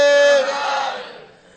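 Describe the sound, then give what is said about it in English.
A crowd cheers and shouts in a wrestling arena, a loud roar of many voices with one strong shout at the start that fades over the final second. “except Kamsa, he became furious. Stop that shouting! He knew that his death was near. Everyone was cheering.”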